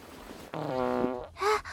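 A fart in a cartoon street-wrestling match: a long, buzzing, tonal blast lasting under a second, followed by a shorter, higher burst, with no speech during the sound.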